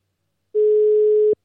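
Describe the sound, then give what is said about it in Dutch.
Telephone dial tone while a call is being placed: one steady, even tone lasting under a second, starting and stopping abruptly, heard alone against silence. “Laten we Ruimond gaan bellen.”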